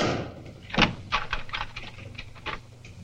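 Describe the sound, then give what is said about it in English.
A door is shut and locked: one firm thud, then several lighter clicks and rattles from the lock and handle, spaced out over a few seconds. “Unhappy with them keeping the door ajar, though, he shuts and locks it.”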